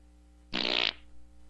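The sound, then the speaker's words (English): A single fart sounds as a loud, buzzy, rasping burst lasting about half a second and fades into a faint trailing sputter. “Why is everybody farting? If everybody was just stop farting, you would cut down on emissions. Stop your farting.”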